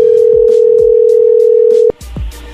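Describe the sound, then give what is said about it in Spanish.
Telephone dial tone while placing a call: a steady, single-pitched hum held for about two seconds, then cut off by a sharp click and a short low rumble. “Bueno, vamos a marcarle otra vez.”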